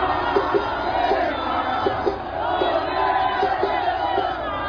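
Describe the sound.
A packed crowd roars and cheers as Neymar is named in Brazil's World Cup squad announcement by Ancelotti at a big event at the Museu do Amanhã, a dense, sustained din of shouts and whoops throughout.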